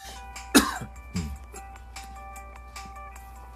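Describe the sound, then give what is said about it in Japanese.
A person with hay fever gives a short cough, one sharp, throaty burst followed by a softer second one, over faint, steady background tones. “花粉症なんでたまに咳をします”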